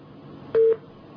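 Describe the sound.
A single short telephone line tone sounds as a phone-in call cuts off, one steady mid-pitched beep over faint line hiss.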